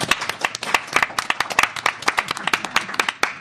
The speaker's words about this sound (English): Many, many thanks to our speakers, and many, many thanks to our wonderful audience here. Let's give ourselves a big hand.